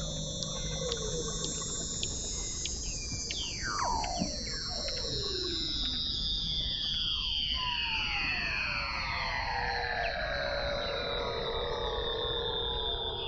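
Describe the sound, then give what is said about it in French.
Weddell seal calling under Antarctic sea ice, its ultrasound made audible: many overlapping whistle-like calls sweeping downward in pitch, some long and gliding, over a constant hiss. “Phoque de Weddell, sous la banquise en Antarctique. Ultras sont rendus audibles pour l'oreille humaine.”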